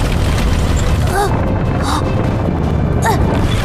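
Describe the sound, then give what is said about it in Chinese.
Ground splitting open in an earthquake, as a sound effect: a loud, continuous, heavy rumble fills the whole clip, with brief voice-like cries rising above it. “舒克，地面裂开了，坦克在往下滑。”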